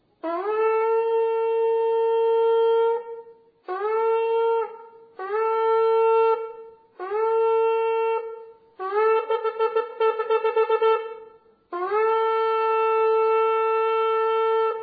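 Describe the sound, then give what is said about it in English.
Shofar blown in the traditional sequence: one long sustained blast, then three shorter blasts, a rapid run of staccato notes, and a final long blast, each note bright and brassy with pauses between groups. “they had a particular way that they would blow the shofar. And it sounds something like this.”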